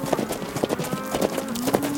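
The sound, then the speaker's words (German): Horse hooves clip-clopping as a rider approaches on horseback while a runaway cow is being herded back, many hollow hoof strikes in a steady, trotting rhythm. “Oh, da kommt Wyatt angeritten.”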